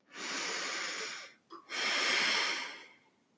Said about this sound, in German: Und jetzt atme noch einmal tief ein und aus.